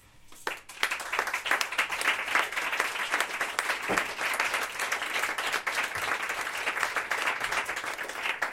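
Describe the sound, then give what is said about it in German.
Audience applause after a spoken text performance: a few scattered claps quickly swell into dense, steady clapping that carries on loudly for about eight seconds. “Ich nehme es als Klatschen.”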